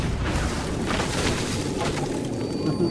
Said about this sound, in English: And he's got another... How many grenades did this guy have?